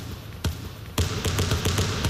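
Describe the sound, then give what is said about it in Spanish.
Basketball bounces form a theme jingle for a basketball segment on Spanish radio: one dull thud, then a rapid run of bouncing thumps over a bright, sustained wash. “5 minutos nos separan de las 3 de la tarde, sintonía de baloncesto”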